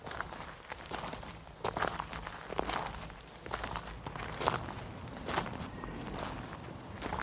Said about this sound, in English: Let's walk uphill now. We're going to go back onto the main ride.